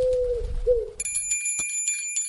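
A small bell tied to a pigeon's leg rings in a few quick, bright, high jingles, after a brief, soft, low coo.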